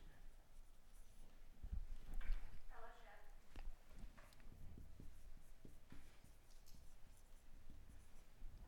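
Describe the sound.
A marker writes on a board in faint scratching and squeaking strokes, a few in quick succession, with a voice speaking at times.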